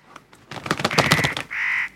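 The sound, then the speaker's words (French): A black bird flies up into a tree, with a rapid run of rough, fluttering pulses followed by one sustained harsh call, heard alone. “Vite, vite, l'oiseau noir monte dans l'arbre. Et une plume rouge tombe. Vite, vite, il s'envole.”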